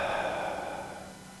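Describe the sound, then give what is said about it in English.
A deep breath exhaled during a guided breathing exercise: one long, steady airy rush that starts fairly strong and slowly fades over about a second and a half, heard alone with no talking. “Breathe in. Hold it there. And exhale.”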